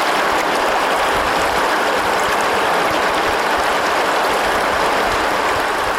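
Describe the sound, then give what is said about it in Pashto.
River water of the Helmand flowing beside an old fortress wall, a steady, continuous rushing hiss with even loudness and no breaks or other distinct sounds. “زه د هلمند سیند تر څنګ د یوې سترې کلا د داسې دیوال سیوري ته ولاړ یم”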